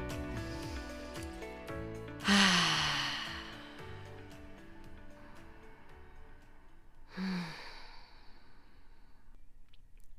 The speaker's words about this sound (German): Dann lass uns gerne zu Beginn ein paar tiefe Atemzüge nehmen, um voll und ganz hier anzukommen.